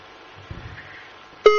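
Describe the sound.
A phone call's disconnecting tone: a faint, muffled line hiss gives way near the end to a single loud, steady beep that cuts in abruptly.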